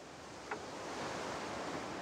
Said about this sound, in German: es ist einfach was Besonderes, das Meeresrauschen hier im Hintergrund